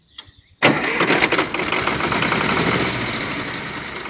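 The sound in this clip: A car engine with a weak battery cranks and catches with a sudden loud burst, then settles into a steady, rumbling idle.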